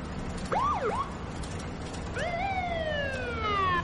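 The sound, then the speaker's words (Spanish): A police patrol car's siren sounds as it follows a bus through a village. It is faint, with wailing tones that sweep up and down in pitch and then glide into a long, falling wail. “Le sigue un coche patrulla.”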